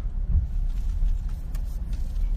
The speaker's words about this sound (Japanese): この駐車場に入ります。